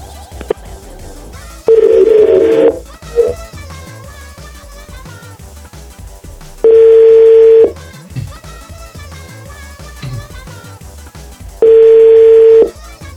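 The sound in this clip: Telephone line tones: a steady mid-pitched tone sounds three times, each lasting about a second, with long, evenly spaced gaps between them over a low background hum.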